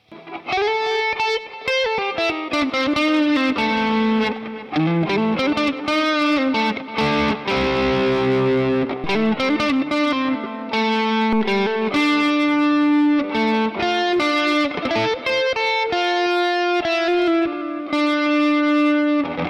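Distorted electric guitar played through an amplifier's second channel set for darker tones rings out loud with sustained, heavily driven notes and chords, shifting from lower phrases to held higher notes.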